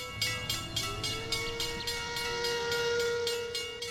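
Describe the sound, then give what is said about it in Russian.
Steam train whistle at a station platform: a loud, piercing, sustained tone that holds steady and edges slightly upward, over a steady rhythmic pulsing from the train. “Громко и пронзительно раздался первый гудок. В небо поднялись черные облака дыма.”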